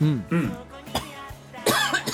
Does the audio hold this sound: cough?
yes